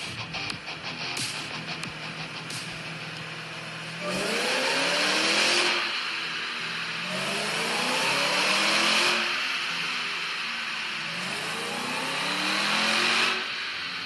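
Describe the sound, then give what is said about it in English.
A car engine on a dyno fires up with rough bursts, then settles into a steady run broken by three long revs, each climbing in pitch before dropping back; loud and gritty, with no voices. “SpeedKore put up a little video of this thing firing up, and it sounds pretty crazy.”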